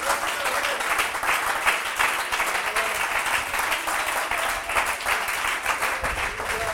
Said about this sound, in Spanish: ¿Por qué no le da un aplauso al Señor en esta hora?